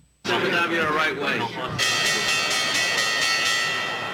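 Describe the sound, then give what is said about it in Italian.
A stock exchange bell rings. A loud, busy stretch of noise is followed by a clear, sustained metallic ringing with a bright tone that slowly fades toward the end. “Vediamo se riesco a recuperare la campanella che non mi è arrivata all'improvviso.”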